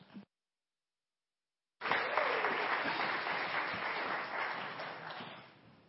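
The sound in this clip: Church audience applauding to welcome their pastor: after a short silence, a full burst of clapping starts suddenly, holds steady and loud, then slowly thins and fades.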